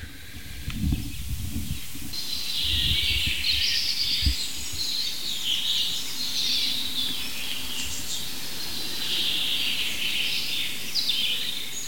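A chaffinch sings, recorded with a directional microphone: high, bright twittering phrases run almost continuously, with a few low thumps and rumbles early on.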